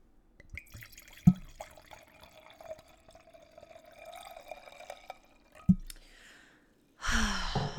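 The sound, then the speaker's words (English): Liquid pours into a glass as a zero-sugar, zero-carb Basque drink is served, making a soft, steady trickle broken by two brief knocks, with a louder rush near the end. “That is the sound of me pouring myself a glass of Basque.”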